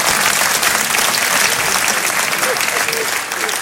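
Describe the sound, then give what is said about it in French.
Dense audience applause during a lecture, loud and steady throughout, easing slightly toward the end. “Oui, là, hier, ils n'avaient pas applaudi, hein, on voit la différence.”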